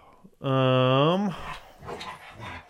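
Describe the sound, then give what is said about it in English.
A dog's long, high whining howl held steady for about a second before dipping in pitch, followed by rougher, broken noise. “we got dogs losing it here”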